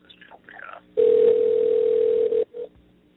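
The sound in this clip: A telephone dial tone plays as a loud, steady, unbroken hum that holds for about a second and a half and then cuts off abruptly. A brief, shorter tone follows, and faint low sounds come before it.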